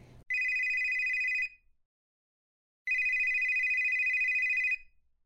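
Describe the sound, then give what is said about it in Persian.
Two long rings of an electronic telephone as a doctor calls, each a bright, steady trilling tone lasting over a second. A silent pause separates them. “یه ساعت بعد دکتر زنگ زد”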